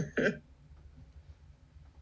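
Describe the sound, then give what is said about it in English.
A single short, sharp sneeze bursts out near the start, then gives way to near-silence with only a low background hum. “Excuse me, I sneezed.”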